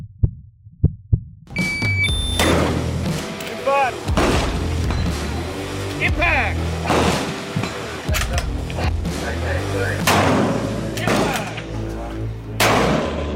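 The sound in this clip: Rifle fire at a 500-metre target during a seated shooting competition stage: a few sharp, short cracks in quick succession, followed by sustained loud, rough noise.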